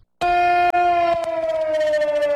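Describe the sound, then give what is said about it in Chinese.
An air-raid siren sounds across Xinjiang for a 18 September memorial alert. A loud, sustained, harmonically rich wail stutters briefly once, then holds steady with its pitch sagging slowly downward. “9月18号上午，防空警报声响彻天山南北，提醒各族群众牢记历史，勿忘国耻。”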